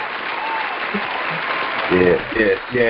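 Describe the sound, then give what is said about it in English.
An audience applauds a guest with steady clapping, and a voice calls out over the clapping near the end. “So we want everybody to get up and put your hands together for the award-winning Queen Taiz. Put your hands together.”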